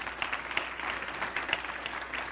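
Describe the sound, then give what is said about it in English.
A church audience claps as a clap offering during worship, a dense, continuous patter of many hands. A few louder individual claps stand out from the fairly soft, even wash. “Go ahead and give Him a clap offering. Yeah, praise God.”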